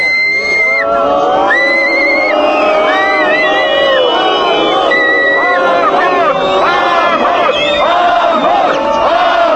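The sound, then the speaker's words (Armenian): Protesters whistle and shout in a dense crowd outside parliament, greeting the vote results on their third day of protest; shrill whistle tones rise over a constant babble of voices and cries. “Արդեն 3-րդ օրը խորհրդարանի դիմաց բողոքի ակցիա կազմակերպող ակտիվիստները սուլոցներով ընդունեցին խորհրդարանի քվեարկության արդյունքները։”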